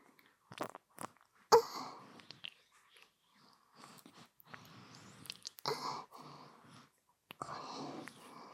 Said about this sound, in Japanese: いろんなもの 食べていっちゃいますね。